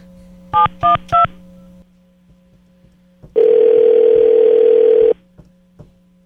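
Telephone keypad tones as a number is dialed again: three short, evenly spaced beeps, then a brief pause and a longer steady tone lasting almost two seconds. A low hum runs underneath throughout.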